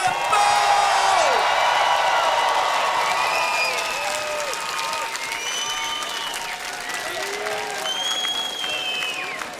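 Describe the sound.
Concert audience applauding and cheering at a Polish hip-hop show in Warsaw: dense, continuous clapping with whoops and whistles rising over it, staying loud and easing off only slightly toward the end.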